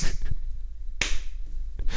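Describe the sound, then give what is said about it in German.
Sarcastic slow clapping: a few sharp, isolated hand claps spaced roughly a second apart, each a crisp loud crack with near silence between, nothing like a building ovation. “Bei so einem Klatschen weiß man nie, ist das das sarkastische Klatschen oder ist das das, wo dann quasi der Jubelsturm der Begeisterung dann so langsam losgeht.”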